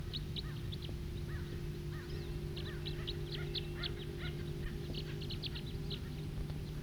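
A bird calls loudly in the distance, giving many short, high chirps in an irregular series over a steady low hum.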